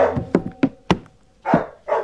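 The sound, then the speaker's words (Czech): A dog barks aboard a capsized shipwreck. A quick series of short, sharp barks comes first, followed by two fuller, longer barks with brief gaps between them. “Ten pes nás odtud nechce pustit.”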